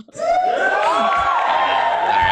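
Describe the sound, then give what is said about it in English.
Crowd cheering and whooping sound effect played after a B-League game recap, starting abruptly and holding loud and sustained, with high whoops rising and falling over the roar. “Give me some applause here. I'm late on the trigger.”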